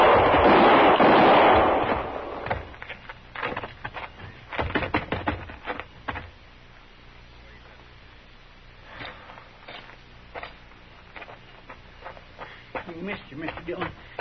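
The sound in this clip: Gunshots ring out in a radio drama shootout: a loud, rough burst opens, then a few sharp cracks follow in a quick cluster, with people talking around them.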